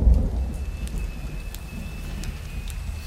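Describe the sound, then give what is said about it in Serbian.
Heavy rain falls in a steady, dense hiss with deep rumbling thunder underneath, loudest at the start and continuing without a break. “Ova kiša pada li pada?”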